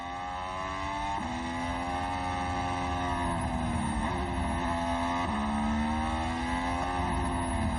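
Formula 1 race car engine on an out lap run to recharge its energy recovery systems: a loud, sustained high harmonic whine that steps down and climbs again at a few gear changes, with no talk over it.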